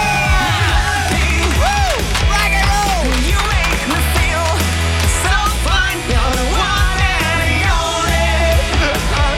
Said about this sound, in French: Là, on a un groupe de rock, ça y est, c'est le bordel dans le studio.